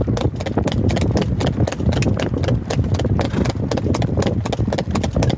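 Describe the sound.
Horse hooves clip-clop along a road in a steady, brisk rhythm, loud and unbroken throughout.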